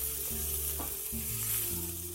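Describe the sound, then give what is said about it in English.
Food sizzles and fries in a pan on the stove as it is stirred: a dense, steady hiss runs throughout, with intermittent scraping stir noises and no talk. “Don't stray too far from the stove so you can adjust as needed. Oh, spilled one on the ground. Stirred a little bit aggressively.”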